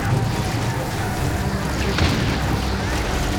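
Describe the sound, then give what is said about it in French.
Explosions and gunfire of a battle as soldiers storm a shoreline at dawn and Germans return fire, with bullets flying. The roar is dense and continuous, with a sharper burst of blast near the middle. “Soudain, éclate un boucan d'enfer. Les bombardements à l'aube n'ont pas suffi à neutraliser les Allemands qui ripostent.”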